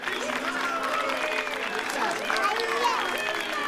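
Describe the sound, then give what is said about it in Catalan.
Townspeople cheer and clap for nobles and church members who are presented before them. Lively clapping mixes with shouting voices, and it swells slightly toward the end. “posen amb d'altres nobles i membres de l'Església davant del poble, que els aclama.”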